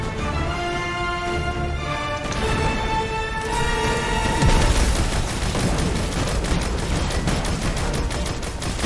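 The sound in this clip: Shock turrets in a video game firing dense, rapid crackling bursts that run continuously through the second half, preceded by steady tonal game sounds.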